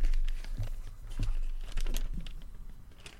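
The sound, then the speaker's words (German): Paper crinkles and rustles as a slip of paper found in a trouser pocket is unfolded, a soft, continuous crackling with several slightly louder crumpling bursts. “Ich falte jetzt einfach mal diesen Zettel kurz auf.”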